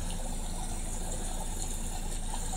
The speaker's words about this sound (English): So I'm cleaning out the fish pond because it's a serious mess.